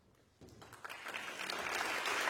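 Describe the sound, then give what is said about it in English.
Opera audience applause greets the conductor as he enters the orchestra pit before a Welsh National Opera performance of Khovanshchina; faint at first, the clapping swells suddenly and keeps building to a fuller, steady level. “And with the applause for conductor Thomas Hanush making his way into the orchestra pit, we're about to enter the turbulent world of 17th century Russia”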